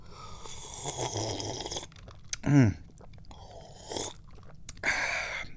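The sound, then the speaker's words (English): Drinking lemon-flavored tea, with a few noisy, breathy slurping sips and a throaty gulp in the middle, each burst rough and close between quiet gaps. “I'm drinking some tea. Some yummy, delicious lemon-flavored tea.”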